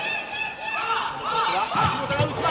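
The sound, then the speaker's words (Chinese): A ball is struck for a serve in a match against Japan. The serve gives a brief thud partway through, under steady commentary and crowd noise. “郭春楠今天一上来表现不错。好，发球。”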